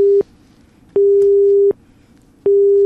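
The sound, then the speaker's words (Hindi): A busy tone sounds after a phone line is cut off mid-call: a loud, steady single-pitched beep switches on and off in an even rhythm, alone with no talk. “किसी कारणवश साडे श्रोते का phone cut गया।”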